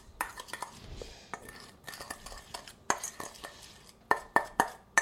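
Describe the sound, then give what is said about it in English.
A spoon clinks against a bowl while dry baking ingredients, including a little nutmeg, are stirred together: many light, irregular taps and scrapes, with a few sharper clinks near the end. “And I'm going to stir that up in the all the dry things, kind of mix them together.”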